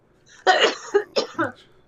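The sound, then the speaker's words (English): Coughing from one person: a long, harsh first cough followed by three shorter, sharp bursts in quick succession, loud and with no talk over them. “Just give me one good cough.”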